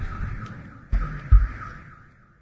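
A car alarm sounds from a parked car, a steady wavering electronic tone that repeats without a break and fades toward the end, with a couple of low thumps partway through.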